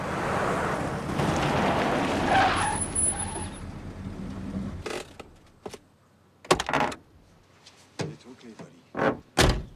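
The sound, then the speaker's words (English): A man gets out of a parked car: steady engine and cabin noise stops, followed by several sharp clunks of the car door and movement sounds, with speech present. “Pollock gets out of the car.”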